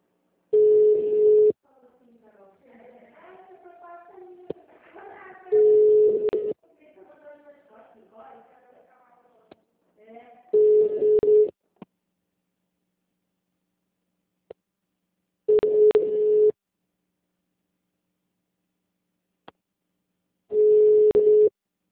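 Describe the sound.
A phone call goes unanswered as the ringback tone sounds five times, each a steady single-pitched burst about five seconds apart. People talk quietly between the first few rings.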